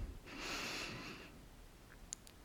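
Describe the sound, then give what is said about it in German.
A deep breath drawn in through the nose during a guided relaxation exercise: one soft, airy inhale lasting about a second, then quiet with a faint click near the end. “Tief durch die Nase ein”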